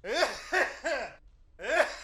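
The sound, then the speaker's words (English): A person vocally imitates their father's distinctive, articulated sneeze: four short, loud bursts, three in quick succession, then a pause before a final one. “my father has a very distinct sneeze. May I perform it for you?”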